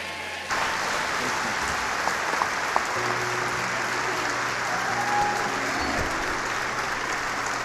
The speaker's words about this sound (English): I want you to make welcome Regeneration Nashville's own Isaacs family. Come on, give it up for the Isaacs.